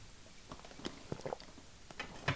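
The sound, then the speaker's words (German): Someone taking a drink, heard as faint, scattered wet mouth clicks and swallowing sounds, quiet and irregular, with no talking. “Lasst mich kurz was trinken.”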